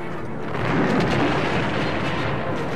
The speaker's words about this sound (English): Another blast starts an ice cave-in and all but buries the frightened C-3PO.